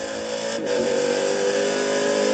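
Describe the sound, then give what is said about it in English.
A race car's engine drives hard through a power slide out of a corner onto a straight on a racetrack, a loud, sustained, buzzing engine note that holds steady throughout. “We want to hear her sing. Here we are, through Le Mans corner once again. We'll do a bit of a power slide coming onto the Almond straight.”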